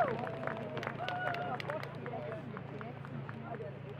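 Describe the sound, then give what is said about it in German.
A crowd applauds to welcome a speaker at a Sternmarsch rally marking the Reformation anniversary, with steady, dense clapping and a murmur of voices underneath throughout. “Nicht Pharao, sondern der Pharao ist jetzt hier, sagt uns ein paar Worte dazu, begrüßt mal mit ein paar Applausbeigaben.”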